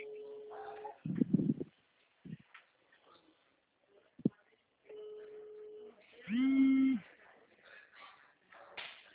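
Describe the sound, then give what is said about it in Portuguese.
An incoming WhatsApp video call rings as two steady electronic tones about a second long, separated by a pause. Soft bursts of handling noise and another brief pitched tone fall in between, all fairly faint. “Ó, vai aparecer a ligação aí pra você, daí você atende, mas aí não precisa desligar nenhuma.”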